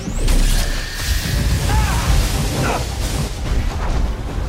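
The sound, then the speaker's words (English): A heavy machine blasting energy at a jump scar: a loud, sustained roaring rush with a deep booming rumble and faint whistling tones running through it, with no talk. “The paladins unlock their case and bring out a heavy machine. Roland presses a power button and it blasts energy at the jump scar.”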